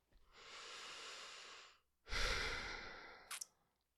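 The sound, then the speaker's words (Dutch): A person breathing: two long, soft, airy breaths of about a second and a half each, the second louder and fuller, ending with a brief sharp hiss. “Even een ademhalen.”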